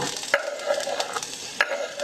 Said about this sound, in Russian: Где-то 1 ложку масла растительного и немножко водички. Кладем вегетарианскую колбаску